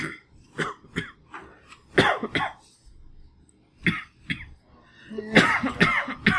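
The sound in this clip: Repeated coughing and throat clearing: many short, dry bursts with uneven pauses, ending in a louder cluster of coughs.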